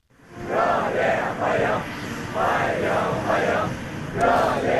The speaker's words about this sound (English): Young people dressed in blue shirts and white trousers chanting and waving to welcome the Russian leader